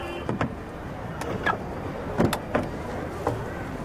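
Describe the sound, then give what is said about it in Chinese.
A car door opening as a passenger gets in with a hired designated driver: a few faint clicks and clunks from the latch and handle over a low, steady background rumble. “开车门”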